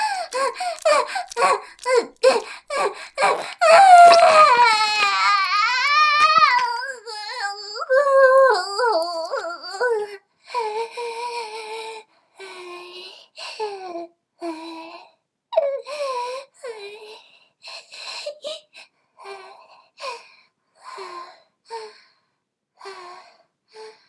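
Crying and sobbing, loud broken wails with gasping breaths and a wavering, quivering pitch that later turn into shorter, halting sobs.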